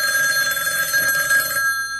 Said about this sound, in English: The phone kept ringing. Is anyone going to answer the phone?